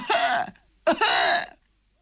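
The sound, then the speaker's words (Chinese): An old man coughs harshly while riding a donkey: two raspy coughs separated by a short pause, the second longer, with nothing else audible around them. “骑在驴上还直咳嗽。”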